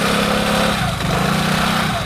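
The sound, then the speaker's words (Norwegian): Small scooters buzz through lively traffic, their light engines making a steady, unbroken, loud drone. “Og trafikken livlig, og små skutere suser forbi fra alle kanter”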